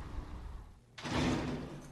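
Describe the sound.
A thick steel prison door slides with a sudden loud, rumbling roll after a brief hush, the heavy grinding noise sustained and gradually easing to the end.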